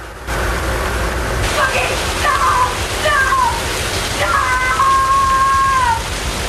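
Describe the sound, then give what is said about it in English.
A spray of water starts up in a cell and gives a continuous, fairly loud hissing rush that runs steadily from start to end. “Suddenly, the spray of water starts again.”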